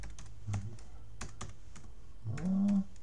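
Typing on a computer keyboard while looking something up online: many quick, light key clicks in an uneven rhythm, steady and fairly quiet throughout.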